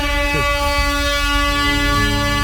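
An air horn blares as a jingle, one loud and steady harmonic tone held for the whole clip, with a brief change in tone near the end.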